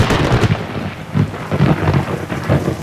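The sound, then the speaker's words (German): Thunder rolls through a summer thunderstorm, a series of loud, low rumbling bursts that swell and fade over a steady hiss of rain, with no voices. “Gewitter. Der Donner, der macht uns nichts, höchstens ein bisschen klüpfen.”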